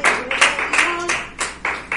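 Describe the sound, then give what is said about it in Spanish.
Hands clapping in rhythm during a church service as an audience's joyful offering of claps, many loud, steady claps at an even beat of roughly two or three per second, with each clap a short sharp smack. “ofrenda de palmas al Señor, pues, con alegría”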